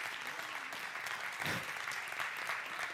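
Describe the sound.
Audience clapping during a church service: dense, steady applause sustained throughout at a moderate level, with no voices standing out.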